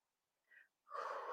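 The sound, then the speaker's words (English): A breath: a short, faint breathy sound, then a brief pause, then a louder rush of breath that runs to the end. “Oh, that was a breath.”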